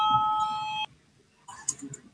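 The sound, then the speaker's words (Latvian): A parliament's voting bell sounds in the chamber before a vote on a culture minister's proposal. It is a steady electronic tone lasting under a second that cuts off abruptly, followed after a pause by a short burst of fainter, higher sounds. “Lūdzu, zvanu, balsosim par 11. Kultūras ministra Puntuļa priekšlikumu. Lūdzu, balsosim.”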